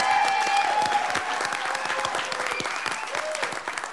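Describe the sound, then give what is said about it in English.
Audience applause for an introduced producer at a candidates' forum: a steady, loud wash of clapping from many hands that continues throughout, with a few voices mixed in. “So quick, give it up for Dawn Youngs.”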